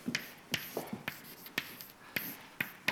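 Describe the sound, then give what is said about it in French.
Quick marker or chalk strokes tap and scrape as an equation is written on a board in a physics lecture. Many short, crisp strokes come in an uneven rhythm, with no voice. “Alors je vais vous écrire là aussi la chose la plus simple”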